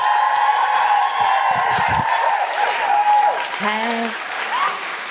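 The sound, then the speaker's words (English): A live stage audience cheers, claps and whoops to welcome a comedian. The sustained roar of applause carries high, rising woohoo cries over it the whole way through. “Please welcome to the stage with enormous guilty feminist woohooing, Alison Spittle!”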